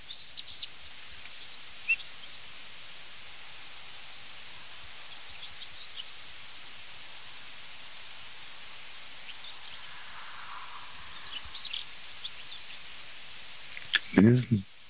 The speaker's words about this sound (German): Ich würde fast sagen, es sind drei Schwarzkühlchen. Die Grille wirst du natürlich ignorieren.